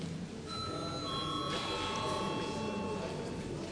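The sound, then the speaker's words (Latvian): A parliament voting bell rings before a vote, a steady electric tone that starts about half a second in and holds faintly over low room murmur. “Lūdzu zvanu.”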